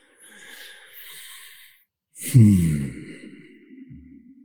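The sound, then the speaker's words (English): A deep breath taken before speaking: a long, soft, airy inhale, a short pause, then a louder, partly voiced sighing exhale that tails off into quieter breathy sound. “And I'm going to take a breath before I begin.”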